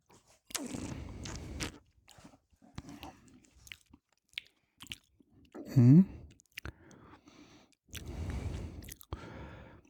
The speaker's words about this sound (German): Ja, jetzt kommen wir, probieren wir mal. Ja, dann sippen wir mal dran.